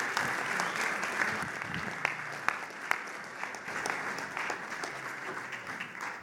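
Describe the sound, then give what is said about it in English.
Audience applause welcoming a speaker to a morning gathering: steady, dense clapping that holds for about six seconds, with a few sharper individual claps standing out over the wash. “So join and give a hand to Robbie Taylor as he comes and speaks to us this morning.”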